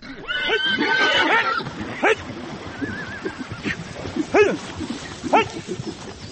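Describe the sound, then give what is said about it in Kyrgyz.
Fighting stallions in a horse herd let out a few shrill, quavering neighs and squeals in short bursts, with scuffling noise between the calls. “Биз барганда тойчу мырза жылкынын кашында алышкан айгырларды ажырата албай уара тартып жаткан экен.”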